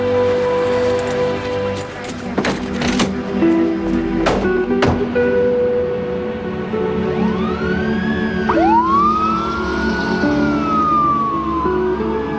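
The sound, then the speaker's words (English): An ambulance siren wails on a street being cleared, its tone sweeping up and down through the second half over a steady hiss like rain, with several sharp knocks earlier on. “We got an ambulance coming through here. Move it!”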